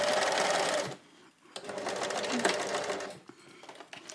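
Sewing machine stitching during a live sew-along, its fast needle rattle running loudly in three bursts: a long opening run, a short pause, a second steady run, then a brief restart at the end.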